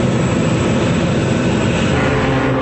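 Airplane flying, a steady loud engine roar that drones on without a break for the whole clip, with no voices.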